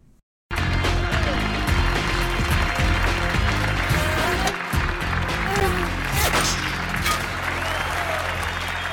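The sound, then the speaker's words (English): A standing ovation erupts as an agent walks into control headquarters in a scene from Get Smart, with loud, dense clapping and some voices sustained for nearly nine seconds after a brief quiet start. “But he walks into the control headquarters and gets just an immediate standing ovation. I think we should just play. I know we have a clip of this one, so maybe we can just give you a sense of what it's like when he first walks in.”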